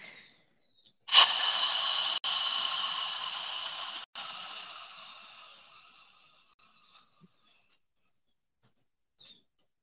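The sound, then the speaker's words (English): A long exhale through the mouth during a guided breathing exercise: breathy, airy hissing starts abruptly, holds steady for a few seconds, then gradually tapers away into silence. “Rest there, and now we'll exhale through the mouth.”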